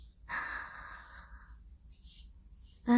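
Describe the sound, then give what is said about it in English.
A deep breath drawn in during a medical examination: a soft, airy rush lasting about a second, then near silence, with a louder voiced sound starting right at the end. “One more time, please. Breathe in.”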